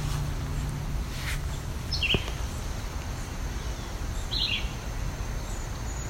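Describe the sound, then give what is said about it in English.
A red-eyed vireo sings two short, high, chirping phrases about two seconds apart over a steady hiss of background noise, with no voices. “That's a red-eyed vireo there. So we have both warbling and red-eyed.”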